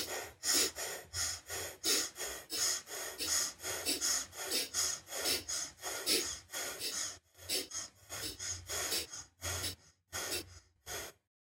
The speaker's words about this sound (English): It's just a rhythmic breath. Sniff in and out through your nose.